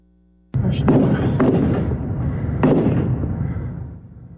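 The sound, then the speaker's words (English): Gunshots from a large rifle during a shooting, captured in news footage. A few sharp cracks sound over a continuous loud rumbling noise that slowly fades. “A shocking video showing people hiding in their vehicles as shots rang out.”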